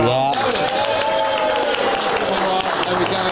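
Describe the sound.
Audience clapping at a live comedy show: dense, continuous applause that holds steady throughout, with a voice speaking over it.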